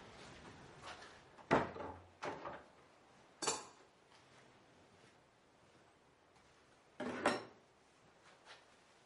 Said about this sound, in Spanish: entra en casa y cierra la puerta.